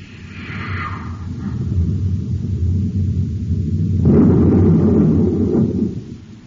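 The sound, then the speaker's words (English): A space torpedo missile explodes and levels a mountain peak: a deep rolling rumble swells steadily, then a louder, brighter blast erupts near the end before fading out. “He destroyed the missile. Smoke and rockets, the entire peak is gone. Leveled flat.”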